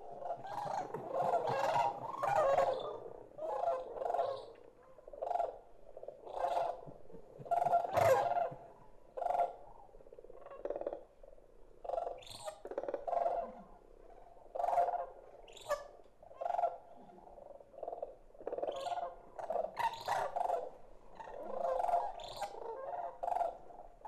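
A bird's trilling call from chicks, repeated many times as a steady series of short, warbling notes with no talk over them.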